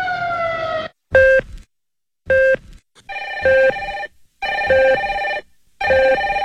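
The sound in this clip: A telephone rings with an electronic tone in a series of short, bright bursts separated by brief silences. The pitch stays steady and no voices are heard.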